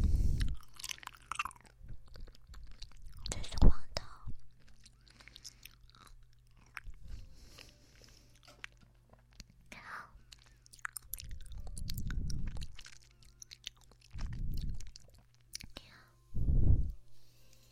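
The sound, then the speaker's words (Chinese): Soft, wet chewing and squishing of jelly while being fed, mixed with close, breathy whispering; several quiet chewing bursts with pauses between them. “好吃吗？喜欢姐姐喂你吃果冻吗？吃完这个就不吃了。”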